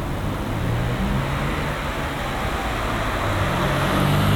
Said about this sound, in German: Hier kommt auch einer auf der Straße angefahren.